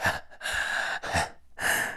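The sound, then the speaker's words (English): Breathy gasps and heavy breathing come in four airy bursts in quick succession, loud and sharp, with brief silent pauses between them and no speech. “you're the one who gasps, not just me”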